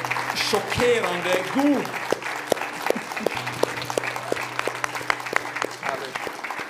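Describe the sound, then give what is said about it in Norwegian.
A conference audience in Oslo applauds, a sustained patter of crisp claps, while a voice speaks over the start before the clapping carries on alone. “So stand up and give them a big applause.”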